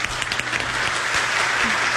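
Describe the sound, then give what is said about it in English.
Applause from an audience: a dense wash of many hands clapping at an even, fairly loud level throughout, with a faint low hum underneath. “Thank you, and please hold your applause until we land.”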